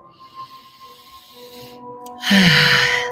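A deep inhaled breath, loud and airy, starts after a quieter stretch and fills the final second over a low steady hum.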